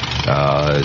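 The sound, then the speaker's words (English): A brief, steady droning hum from a famous World War One era aircraft engine running, its harmonic tone holding level at moderate volume for under a second. “And here's the sound, by the way, of a World War One aircraft engine of that period, if you'll bring it on there.”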